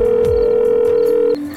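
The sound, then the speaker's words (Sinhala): A telephone tone heard while placing a call, one steady, unbroken pitch held for just over a second before it abruptly cuts off. “ඊට පස්සේ වෙසල්ට call කරා. ඔන්න එතකොටයි වෙසල් phone එක ආන්ස කළේ.”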